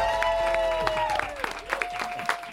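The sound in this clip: An audience applauds a performer with clapping under loud whoops and shouted cheers. The voices slide up and down in pitch over a steady bed of claps.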